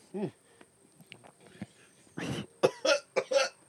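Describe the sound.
Coughing after accidentally inhaling cigar smoke while talking: a few faint small sounds, then a rough burst of several harsh, hacking coughs near the end.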